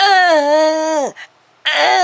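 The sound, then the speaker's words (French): Fake crying from people pretending to weep, a voice imitating sobbing: a sustained, wavering wail that sinks in pitch and breaks off, a brief gap, then a fresh wail begins. “La preuve, nous allons verser quelques larmes maintenant. Attention, on va farcer.”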